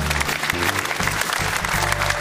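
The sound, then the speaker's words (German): A studio audience on a football talk show gives a brief burst of applause, dense, even clapping at a steady level throughout. “Da sehen wir ihn und kriegt er natürlich von uns und von unserem Publikum auch einen Applaus.”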